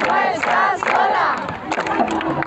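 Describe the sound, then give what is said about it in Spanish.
Crowd cheering loudly for activist delegations of a Gaza-bound solidarity flotilla, with many voices joined in sustained shouting that sounds like chanting and holds a high level throughout. “Las personas aplaudiendo a las activistas de las delegaciones de las más de 40 nacionalidades que se suman a este gesto solidario.”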